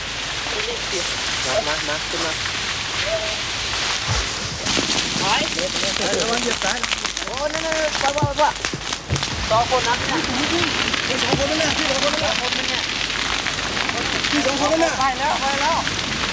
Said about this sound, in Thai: มีปัจจัยหลายประการที่ทำให้ไฟในคืนนี้ค่อนข้างจะรุนแรง